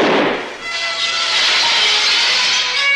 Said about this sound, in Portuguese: Rápido como um raio, o fantasma atira no lustre e tudo cai na escuridão.